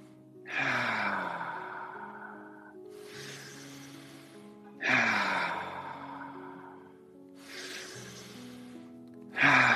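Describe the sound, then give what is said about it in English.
Deep breathing during a guided breathing exercise: long, audible inhales through the nose alternating with breathy exhales, about two full cycles plus the start of another, over faint sustained tones. “Inhale through the nose. Exhale.”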